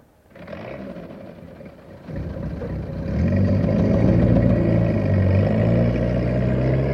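A tank engine growling as the tank drives off around a burned-down fire and out onto the road; a low, rough rumble swells in loudness over the first few seconds, then holds steady and loud, with no voices.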